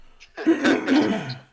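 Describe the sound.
Throat clearing from someone with something stuck in the throat: one loud, drawn-out, rasping clear that lasts about a second and stands alone.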